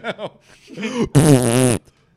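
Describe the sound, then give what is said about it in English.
Farts blown into a microphone: two short puffs, then a longer sputtering one, and finally a loud, buzzing blast lasting over half a second before cutting off. “They're farting this microphone.”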